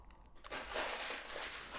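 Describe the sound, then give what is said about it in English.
Snyder's of Hanover pretzel pieces being handled make a continuous crinkly, crackling rustle that starts abruptly and carries on steadily at moderate loudness. “Hello, pretzel pieces. Oh, of course, as always, this episode is sponsored by Snyder's of Hanover.”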